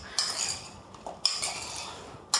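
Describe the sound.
Metal utensil clinks and scrapes in a dish while salted tomato pieces are stirred, several soft, bright clinks between quieter scraping.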